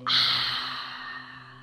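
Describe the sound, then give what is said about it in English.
A single inhale through the nose during a guided breathing exercise: a sharp-onset airy rush that fades gradually over more than a second, heard alone without talk. “So we're going to breathe in through the nose, hold it for four”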